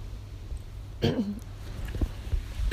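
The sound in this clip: A single brief throat clearing, a low raspy scrape partway through, set against a quiet background with faint breathy sounds afterward.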